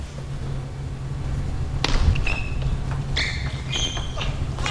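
Sharp ticks of a table tennis ball struck on a backhand serve during a match: a few quick, crisp hits over a steady low hum.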